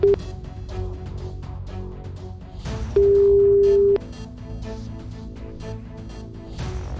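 Ringback tone on an outgoing phone call. A steady, mid-pitched tone holds for about a second in the middle. A brief fragment of an earlier tone sounds at the very start, over faint low background noise.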